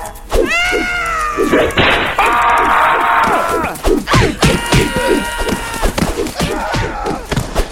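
Heavy smashing thuds from a mega punch attack in a video game, landing as many rapid, loud impacts mixed with whining, meow-like tonal cries and crashing bursts.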